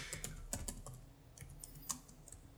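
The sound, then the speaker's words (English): Typing on a computer keyboard: many quick, faint key clicks in an irregular rhythm, with brief pauses between bursts. “Look, I typed in Cavassier.”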